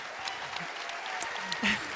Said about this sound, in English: We know, which is incredible, that deserves applause for sure.